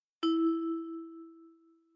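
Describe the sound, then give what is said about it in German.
A single bell-like ding sounds as a cue tone in a German language lesson. It is struck once, holds a clear, steady pitch and slowly fades over nearly two seconds, heard alone. “Wiederholen Sie die Verben nach dem Signal.”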